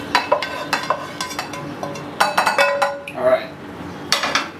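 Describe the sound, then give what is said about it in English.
Mushrooms are put into a bowl while cooking: many sharp clinks and scrapes of utensils against dishes, coming in quick clusters with short pauses between them. “We're gonna put the mushrooms now in a bowl. Just keep them on the side.”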